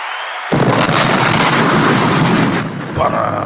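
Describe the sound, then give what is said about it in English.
An explosion sound effect of bombs bursts in suddenly after a brief silence as a loud, deep boom, then rumbles on steadily for about two and a half seconds before easing off. “Bombs!”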